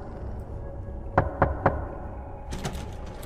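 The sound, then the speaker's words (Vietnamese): Three sharp, evenly spaced knocks, like pecking, strike a bathroom door over a low steady background rumble. A few fainter, quicker taps follow shortly after. “Âm thanh cốc cốc cốc vang lên, làm cho hắn tưởng tượng hình ảnh có một con gà bị điên đang mổ nát cửa phòng vệ sinh để vào bên trong.”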